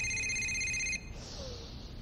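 A phone on a coffee table rings with a bright, steady electronic tone that stops after about a second, leaving only quiet background noise.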